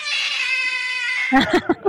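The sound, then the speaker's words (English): An unhappy house cat, upset that its owners are home all day, lets out a drawn-out, wavering caterwaul. The cry then breaks into a few short, choppy bursts of sound. “That's the sound of a cat that is not amused. That cat is not happy.”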